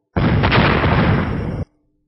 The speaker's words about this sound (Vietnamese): Một trận nổ liên miên truyền tới